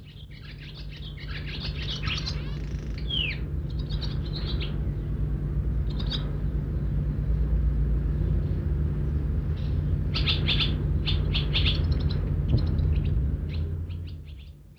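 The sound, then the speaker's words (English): Birds chirping in a barn where they nest on ledges: many short, high chirps and twitters come in scattered bursts over a steady low hum. “They actually are more common in barns than in houses, though, because they like to go in and nest on a ledge or something like that. Here they are in the barn.”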